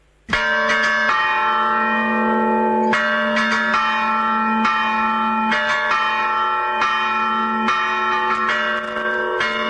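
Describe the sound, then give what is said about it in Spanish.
Church bells ring a death knell in Carenas, Aragón, with many overlapping strikes forming a continuous, loud, sustained ringing throughout, heard alone. “Este es un toque de difuntos, este, ¿no? Este es un toque de difuntos de Carenas, en Aragón.”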